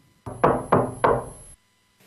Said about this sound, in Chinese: 此刻门外正有人在客气地敲门